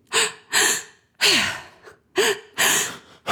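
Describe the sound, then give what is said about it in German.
Deep, forceful breathing through a wide-open mouth, filling the belly and chest and releasing the air again, in a breathing technique likened to crying or sighing. Several loud, rushing breaths follow one another in a steady rhythm, with no talk. “Du atmest so ganz tief ein in den Bauch und in den Brustkorb und lässt die Luft dann wieder so raus. Das hört sich ungefähr so an.”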